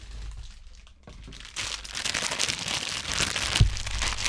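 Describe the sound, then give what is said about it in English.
Crinkling aluminum foil as a foil hat is taken and put on, a dry rustling crackle that swells louder partway through and keeps going in dense, irregular crinkles, with no talk. “Excuse me. I gotta put my aluminum foil hat. Give me a second. Let me get it.”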